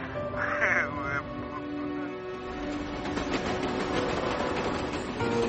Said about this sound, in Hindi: ठीक पीछे ट्रेन जा रही है।